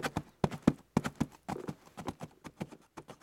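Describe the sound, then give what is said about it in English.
A ridden horse's hooves clip-clop on the ground, many sharp hoofbeats in a quick, fairly even rhythm. “He trots back and forth, periodically coming to a complete stop, all the while staring at them. Then suddenly, he gallops off.”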